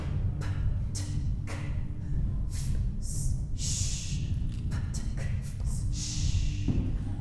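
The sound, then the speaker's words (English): Breaths drawn in during a vocal warm-up exercise: a few airy inhalations separated by short gaps, over a steady low hum. “So we'll breathe in”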